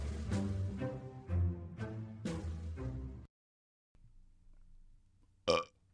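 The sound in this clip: A burp sound effect: a long, loud, croaking belch with rough, pulsing tones lasting about three seconds, then silence, a low rumble and one short, sharp burst near the end.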